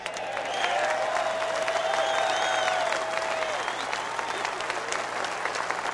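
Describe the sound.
A crowd shouting and applauding during a sermon: a steady, loud roar of clapping and raised voices that holds for the whole stretch, with a voice rising above it.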